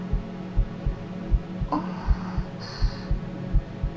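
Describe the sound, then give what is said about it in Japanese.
A heartbeat felt through a chest during a close embrace: steady, low double thumps repeat every half second or so, soft and muffled over a faint hum. “君のこの鼓動の感じは、”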